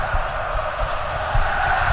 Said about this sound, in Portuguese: a galera vai se manifestando, ouça, ouça, ouça o público aqui na Neoquímica Arena.